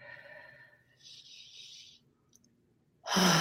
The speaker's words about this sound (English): And just take a couple of deep breaths.